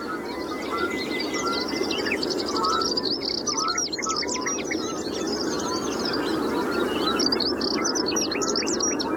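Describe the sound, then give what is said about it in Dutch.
A bird sings its high, shrill territorial song at a reed-bed site, with many quick, sharp chirps and trills repeated throughout over a steady, hissing natural background. “Laat hij zich nog even horen met zijn hoge, schelle zang.”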